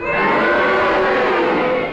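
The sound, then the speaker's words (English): A studio audience at a panel game cheers and boos together, a loud, sustained blend of crowd voices lasting about two seconds. “If you think that Clement Freud was deviating and you agree with Derek's challenge, will you cheer? If you disagree with his challenge, will you boo? And will you all do it together now?”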